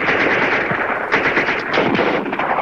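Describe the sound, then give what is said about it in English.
A barrage of automatic rifle fire laid down as covering fire in slushy, wintry woods: rapid shots blur into a dense, loud, continuous rattle that holds steady throughout, with no voices. “Sergeant Kinney pops up long enough to cover Kip's advance with a barrage of automatic rifle fire.”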